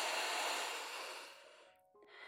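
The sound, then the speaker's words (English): A deep breath drawn in during a guided breathing exercise: one long, airy inhale that holds steady and then fades over nearly two seconds, followed by a brief pause and a quieter stir of breath. “Now take one more deep breath.”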